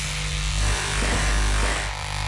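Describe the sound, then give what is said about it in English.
Electric clippers shave a person's head with a loud, steady buzzing drone that barely wavers for the whole stretch and stands alone without talk. “And I'm gonna shave my head. Just hair.”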